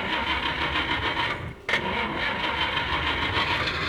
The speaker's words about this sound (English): Let's see if we can get our motors running.